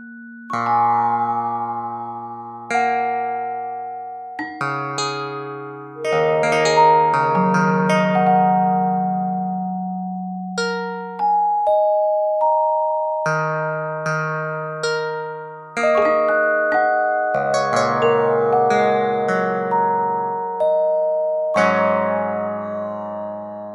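Bell-like chimes sound for live Wikipedia edits, with lower notes marking larger edits. Many ringing notes at varied pitches strike at irregular intervals, often overlapping as each decays.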